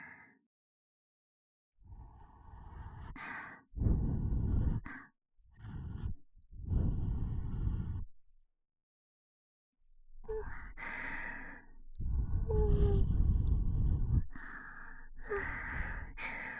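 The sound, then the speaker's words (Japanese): Gentle blowing into the ear, ASMR style, comes as a series of soft, airy breath puffs of varying length. Brief silences separate the puffs, and they are heard alone with no talking. “それじゃあ、フーフーしますね。くすぐったかったらごめんなさい。じゃあ、行きます。”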